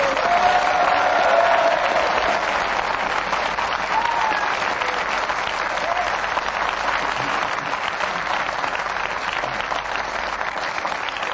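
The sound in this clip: A panel game show's studio audience bursts into long, hearty applause for the week's winner. The clapping stays full and even throughout, without pauses.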